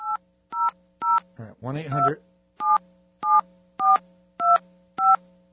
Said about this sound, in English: So let's dial now. We're going to dial. Let's see. I could do this. Can I? Yeah. All right. 1-800.